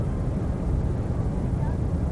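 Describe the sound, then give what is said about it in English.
An airplane roars steadily as it descends very low over marshland toward a runway landing. The dense, deep engine rumble stays loud and even, with no distinct separate events. “We come over marshland, very close to the ground,”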